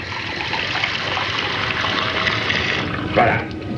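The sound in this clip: Water pours into a glass in a steady, full trickling stream that holds level throughout, then briefly surges louder near the end.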